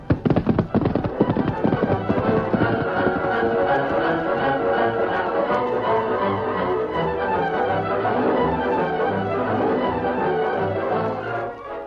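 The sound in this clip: Galloping hoofbeats of the Lone Ranger's horse Silver in a western drama, a rapid, dense drumming of hooves that stays loud and steady for many seconds before easing slightly at the end.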